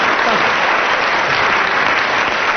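Audience applause fills a comedy panel show, the 1979 Christmas edition of I'm Sorry I Haven't a Clue: dense, even clapping from many hands that holds at a steady loudness from start to finish.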